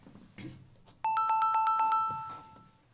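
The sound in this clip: Electronic telephone tones while calling someone: a few faint clicks, then a rapid series of high beeps ending in one held tone, with quiet voices at the start and end.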